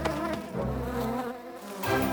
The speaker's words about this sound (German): Aber die Wespen haben sie gesehen und kommen angeflogen, um sich die beiden Bienen zu schnappen.